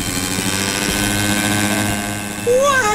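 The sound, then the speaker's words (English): Rocket shoes fitted with an ice cream machine whisk as a propeller, giving a loud, steady, buzzing propeller drone with a rich mechanical hum that swells louder and adds a wavering high whistle near the end. “I've got this whisk from an ice cream machine and thought it would make a tremendous propeller for some rocket shoes I've been working on. Let's give them a try.”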